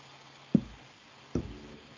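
Two dull knocks on a table, a little under a second apart, each a sharp thud standing out from a quiet, faintly hissing background.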